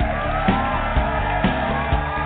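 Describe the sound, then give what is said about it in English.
A crowd cheers wildly in a radio show sound effect, with whoops, shouts and yells merging into a dense, loud and continuous roar. “And the crowd goes wild with abandoned approval.”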